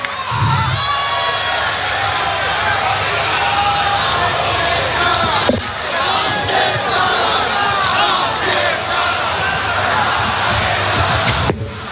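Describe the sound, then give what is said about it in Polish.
A large crowd at a rock festival in Poland applauds and cheers for the stage crew, a dense, loud, continuous roar of shouts and clapping with a brief dip near the middle. “Nagrodźcie ekipę brawami. Dzięki nim zawsze czujemy się tutaj po prostu bezpiecznie.”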